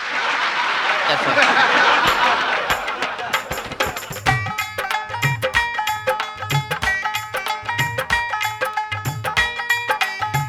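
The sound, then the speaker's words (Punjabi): An audience applauds at a Punjabi celebration of a newborn son, a dense burst of clapping for a few seconds that fades as rhythmic percussive music takes over. “ਇੱਕ ਵਾਰੀ ਜ਼ੋਰਦਾਰ ਤਾੜੀਆਂ ਮਾਰ ਦਿਓ।”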